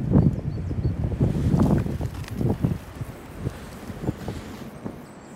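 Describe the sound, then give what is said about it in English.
Strong wind blows through woodland around a thick standing oak trunk, with fallen trees nearby. Low, rumbling gusts are loudest in the first half, then ease into a quieter, uneven rush with a few soft knocks. “The wind's still raging, but I'm sort of lurking behind a thick trunk that hasn't fallen over.”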